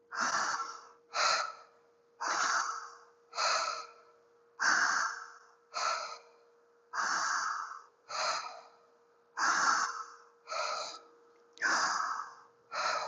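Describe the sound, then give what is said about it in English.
Slow, deep breathing in and out during a guided breathing exercise, about a dozen airy, audible bursts at an even, unhurried pace with short silent gaps between them and no talking. “Letting the breath come in and letting it flow out. It's easy to breathe, bringing it in, letting it go.”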